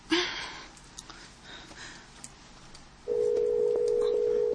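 A telephone line tone while dialing a number, heard as a steady, even hum that holds for about the last second and a half, after faint rustling and a soft breath.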